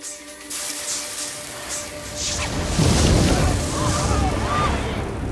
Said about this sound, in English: The glowing light grew brighter as Sir Manison burst into flames.